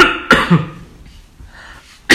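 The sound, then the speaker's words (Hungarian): A person coughing and clearing their throat: a few sharp, rough bursts close together, a quieter gap, then one more abrupt cough. “Nem fogom én ezt kivágni, majd hallgassák csak a krákogásra.”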